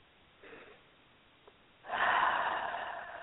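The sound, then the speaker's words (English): A deep breath: a faint, soft inhale comes first, then after a pause a loud, airy exhale that holds steady for over a second and slowly fades. “So I invite you now to take a deep breath in and out.”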